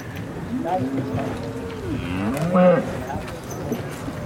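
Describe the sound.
Low, drawn-out mooing of bulls at a cattle market, a few overlapping calls with wavering pitch over steady background noise.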